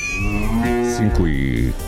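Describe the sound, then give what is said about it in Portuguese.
A cow moos in one long, low, drawn-out call with a shifting tone, heard clearly and alone. “Um mugido pra você e pra gente.”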